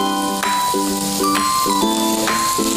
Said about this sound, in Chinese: 随后放入鸡蛋，继续翻炒，这个时候火稍微大一点。